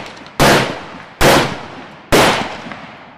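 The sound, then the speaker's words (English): Three gunshots ring out at night near a camp. Each is a sharp, loud crack with a short fading tail, and they come less than a second apart. “One night, near midnight, you hear several guns fired west of camp. Then suddenly more shots are fired east of camp.”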